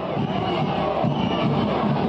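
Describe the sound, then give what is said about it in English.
A rowdy crowd at a Bolivian presidential debate in La Paz makes a continuous loud hubbub of many overlapping voices, with bits of cheering rising from the din. “Debates draw rowdy crowds.”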